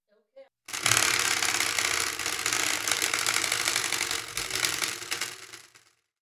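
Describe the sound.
A prize wheel with sixteen segments spins, giving off a dense, loud ratcheting clatter. The clatter runs steadily for about five seconds, then fades out.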